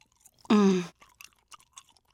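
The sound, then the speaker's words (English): People chewing bites of steaming macaroni and cheese: a brief voiced hum, then a few soft, faint mouth clicks and chewing noises in near silence. “Macaroni... and cheese. Try it. Lance, Blanche, and Adelaide reluctantly take a bite.”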